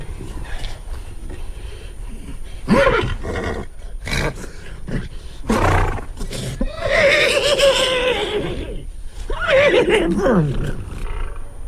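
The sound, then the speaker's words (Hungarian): A person imitating a horse's neigh, meant as a horse that wants to go for a walk: several loud, wavering whinny-like bursts separated by short raspy breaths and pauses. “Ez egy szomjas ló nyerítése. Megmutassam, milyen, ha sétálni akar?”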